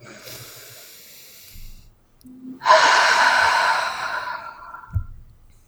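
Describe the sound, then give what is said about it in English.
Deep breath taken together during a guided breathing exercise: a quiet drawn-in breath, then a long, loud, airy exhale that fades out, followed by a short puff of breath near the end. “And everyone, let's take a deep breath.”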